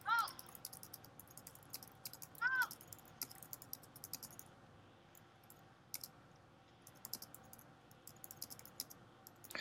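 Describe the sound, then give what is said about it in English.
Typing on a computer keyboard, a quiet run of quick, irregular key clicks with brief pauses that carries on steadily throughout. “What are you typing?”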